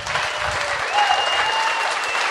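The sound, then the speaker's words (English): An audience claps, a dense, even burst of applause that holds at a steady level throughout. “Weren't you clapping, sir?”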